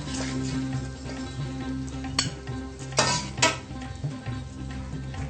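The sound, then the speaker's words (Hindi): A cooked vegetable dish is served out of the pan into a plate after the stove is turned off: soft scraping of a spoon broken by a few sharp metallic clinks against cookware, fairly quiet overall. “अब हम इसको dish में निकाल लेते हैं।”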